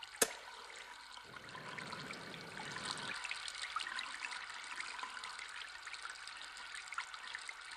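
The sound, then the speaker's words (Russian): Tap water runs into a sink as a man opens the tap and lights a gas water heater. A soft, steady trickling hiss stays faint throughout, with one sharp click near the start. “Мужчина открывает воду, зажигает колонку.”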